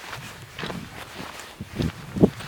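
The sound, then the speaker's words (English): Footsteps on a walk in Joshua Tree National Park: a few soft, uneven steps, quiet and slightly crunchy, with the last step the loudest. “I'm third hour into this walk”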